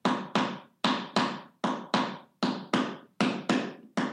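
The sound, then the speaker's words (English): Hand taps played in unaccented five-note groups, sticking right-left-right-left-left. Many short, dry strokes of fairly even loudness follow one another in a quick, regular pulse, with no talking. “Now I'm going to play without the accent. One, two, three. Then it sounds like this.”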